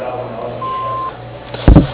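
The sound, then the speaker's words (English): An answering machine beep sounds over a phone line: a single steady mid-pitched tone lasting about half a second over a faint low hum, followed a little later by a brief, louder noisy burst. “Hello, we are not available now. Please leave your name and phone number after the beep.”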